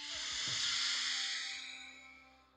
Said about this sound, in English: Then a slow inhale,